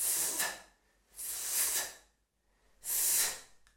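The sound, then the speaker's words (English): Voiceless soft "th" fricative demonstrated as a pronunciation example: three sustained, breathy hisses of air, each under a second long and separated by short silent pauses, fairly quiet. “Let's learn the soft TH. We'll call it the soft TH. And it sounds like this.”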